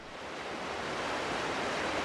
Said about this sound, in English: We're right at the confluence of the Colorado and the Roaring Fork Rivers in Glenwood Springs.